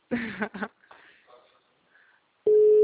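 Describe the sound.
A telephone call tone for an unanswered call follows a brief voice and a short quiet pause, then sounds as one steady, even pitch that holds loud to the end.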